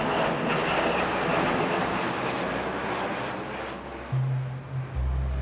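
An airplane flying, heard as a continuous broad roar of aircraft engines that stays fairly even throughout, with a low droning hum entering near the end.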